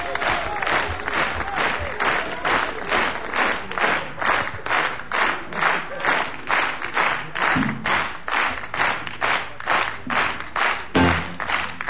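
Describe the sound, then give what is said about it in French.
A studio audience claps in unison: many steady, evenly spaced rhythmic claps repeat at a brisk, regular pulse throughout, loud and even. “Pour moi, s'il vous plaît, et pour le public du studio Charles Trenet.”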